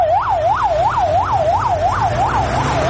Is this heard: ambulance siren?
yes